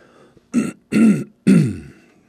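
Throat clearing by a person with a sore throat: three rough, gravelly bursts in quick succession, fairly loud and with no talk.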